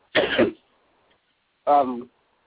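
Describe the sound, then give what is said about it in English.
A person clears their throat twice, two short rough bursts separated by a pause of about a second, alone against silence. “let me give you a chance to get you a little quick drink of water and clear your throat”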